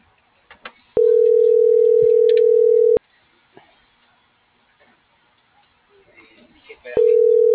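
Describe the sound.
Telephone tone heard while placing a call: a steady mid-pitched hum lasts about two seconds, stops for about four seconds of faint background noise, then starts again.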